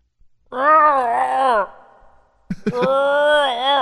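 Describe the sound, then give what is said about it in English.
A human voice imitates groaning cheese with two long, low, wavering moans. The second moan begins with a few stuttering bursts after a short quiet gap. “Honey, you hear that? Your cheese is groaning again.”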